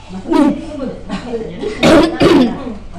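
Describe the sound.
Coughing and sputtering from someone choking on a food that stings the back of the throat without tasting hot: a few harsh, raspy bursts, the last two close together, with voiced throaty sounds between them.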